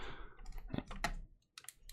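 Card packaging clicks and rustles as a thick Chronology Volume 2 trading card pack is pulled from its windowed box, giving a few quick crinkly taps and scrapes with a short pause before a final rustle.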